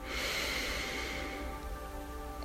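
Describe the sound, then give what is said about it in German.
A deep breath drawn in through the nose makes a soft, airy rush that is steady at first and fades gradually. “Atme tief durch deine Nase ein”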